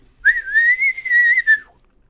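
A person gives a single sustained, fairly high whistle to call sheep. It holds a nearly level tone with slight wavering for about a second and a half, then drops off at the end. It is loud and heard alone.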